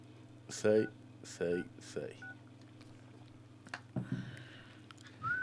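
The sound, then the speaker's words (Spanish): Telephone keypad tones as a call is dialed to an internal extension: a few short electronic beeps at irregular spacing, fairly quiet, with soft background noise between them. “Voy a hacer otra llamada porque... A total, ver, tengo una eternidad acá para esperarlo.”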